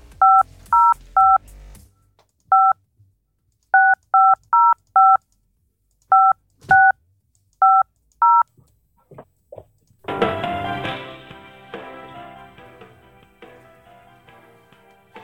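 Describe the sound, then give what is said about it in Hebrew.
Telephone keypad tones dialing a hotel: many short, evenly pitched beeps in quick clusters with brief pauses between, followed by a louder, fuller tonal sound on the line. “אנחנו מנסים לחייג למלון. בוא נראה מה אנחנו נשמע. בבקשה, אנחנו מנסים לחייג.”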